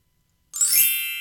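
A bright twinkling chime sound effect rings out after half a second of silence, a high shimmering tone that sustains and slowly fades.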